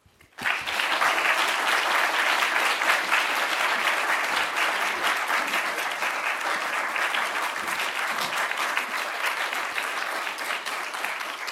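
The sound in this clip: An audience applauds to welcome a poet to read. The clapping starts abruptly and stays dense and steady for about eleven seconds.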